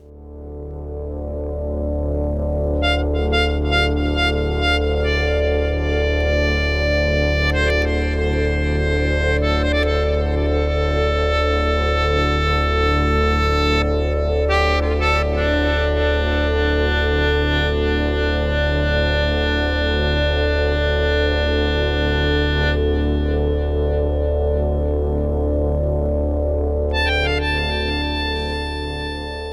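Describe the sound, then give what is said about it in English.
Distorted electric guitar feedback drones in sustained, ringing tones while a melodica plays a slow melodic solo over it. The sound is loud and steady, with no rhythmic pulse, and the high harmonics swell and shift from time to time. “The guitar feed and melodica solo sounds like this.”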